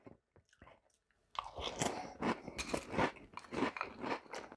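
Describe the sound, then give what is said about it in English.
Someone eats a bowl of Monster Mash cereal. A few quiet clicks come first, then loud, continuous crunching and chewing bites follow. “Because it's been so long since I've had cereal, the pleasure of just eating a bowl of cereal is enough to make this delicious.”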